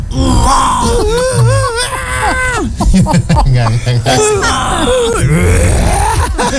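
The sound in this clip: A voice imitates a baby's growling cry with rough, wavering wails and groans that bend up and down in pitch, loud and nearly continuous throughout.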